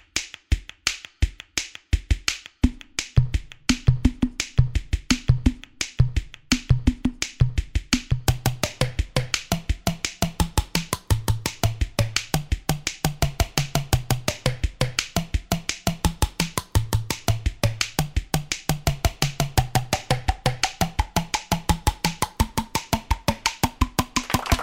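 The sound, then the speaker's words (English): A song built from edited recordings of cheek slaps, forehead smacks, tooth taps and cheek flicks: many sharp percussive clicks and pitched pops in a tight, steady beat that grows denser after a sparser opening. “He recorded clips of himself doing cheek slaps, forehead smacks, tooth taps, and cheek flicks. He then edited it all together and juiced it up, and the track sounds like this.”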